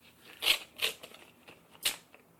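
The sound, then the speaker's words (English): An envelope being opened gives a few sharp papery crinkles and tearing bursts, fairly faint and separated by brief pauses. “On the envelope, of course. I'm about to open it”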